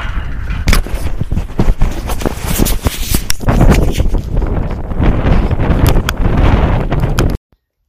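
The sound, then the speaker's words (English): Strong outdoor wind blowing into a microphone: a loud, continuous roaring rumble with gusty surges that cuts off abruptly near the end. “I'll have to wait to get out of the wind here. The wind kicked up and it's going to be hard to hear me”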